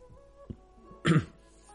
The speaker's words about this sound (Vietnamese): Bên trong Ngọc Giản truyền tới tiếng ho khan vội vàng của đội trưởng.